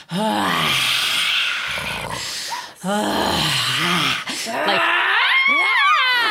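Loud vocal sounding on the exhale after a deep breath in: about three long, strained voiced tones like groans or cries, each bending in pitch, the last climbing higher and ending in a rising wail.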